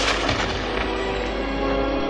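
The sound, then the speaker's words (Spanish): Meteor shower crashing down into the sea: a loud, dense, unbroken roar of crackling, booming impacts that holds steady for the whole stretch, with no voices. “La intensa lluvia de meteoritos cae sobre el mar mientras los lémures miran sin comprender lo que está ocurriendo.”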